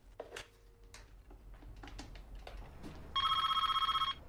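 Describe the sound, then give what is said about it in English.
An office telephone rings with a bright, warbling electronic trill. One loud burst of ringing comes near the end, after a stretch of faint, scattered small sounds. “goes to answer his office phone.”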